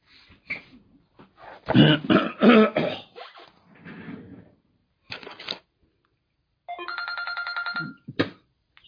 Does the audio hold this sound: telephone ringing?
yes